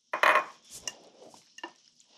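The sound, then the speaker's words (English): Raw eggs are added to a macaroni, sour cream and cheese mixture: a wet, splashy plop at the start, then a few light clinks and scrapes of a utensil against the dish. No one speaks. “Sour cream makes it creamy, and eggs bake it up like a souffle. All right, so in goes the eggs.”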